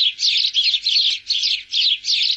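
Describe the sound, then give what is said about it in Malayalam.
House sparrow chirping in a quick, steady run of bright, high chirps, grouped into several short bursts with brief gaps between them, loud and alone. “മനുഷ്യരെ ചുറ്റിപ്പറ്റി കഴിയുന്ന പക്ഷികളിലൊന്നാണ് അങ്ങാടിക്കുരുവി.”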